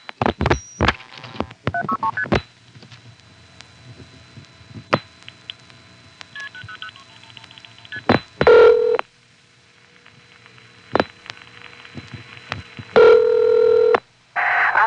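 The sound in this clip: A touch-tone telephone keypad dials a toll-free number in a quick run of short, bright tones. Clicks follow on the line, then two longer, louder tone bursts.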